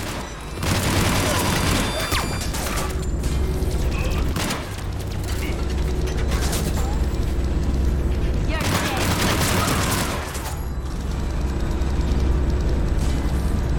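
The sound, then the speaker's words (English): Gunfire from a particle rifle in Mass Effect 3: several loud bursts of rapid, crackling shots separated by short gaps, with a player talking between and over them. “Okay, so this is the the original gun as converted into a Mass Effect 3 gun. It's got the particle rifle thing where, like, as soon as you stop shooting, it starts recharging.”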